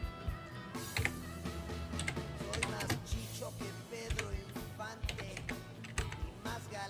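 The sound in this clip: Someone types on a computer keyboard to note a date in a calendar: quick, uneven clicking keystrokes that come in many rapid bursts with short pauses between, fairly quiet.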